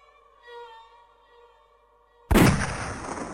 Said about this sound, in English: The crack of the rifle's discharge broke the serenity of the morning, and Constantine